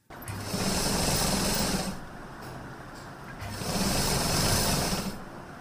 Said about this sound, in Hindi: करीब ही एक घर में अपनी सिलाई मशीन पर सर झुकाकर काम कर रही हैं।